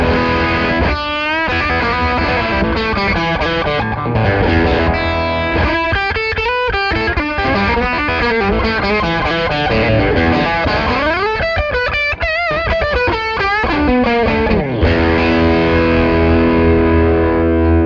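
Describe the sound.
Electric guitar played through a humbucker pickup and a distortion effect, thick and sustained, with continuous notes, slides and bends, loud and steady throughout with no voices.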